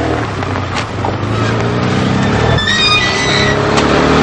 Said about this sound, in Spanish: Llega el Mercedes de Iván.